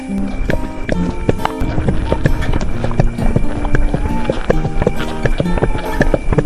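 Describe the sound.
Hooves clip-clop as a horse trots, a quick, steady rhythm of sharp knocks that runs through the whole clip over a dense, busy background.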